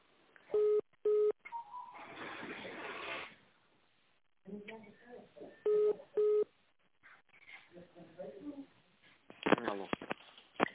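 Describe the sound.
A telephone call being transferred: two pairs of short, steady dialing beeps, the second pair several seconds after the first, with muffled talk and line noise over the phone between and after them.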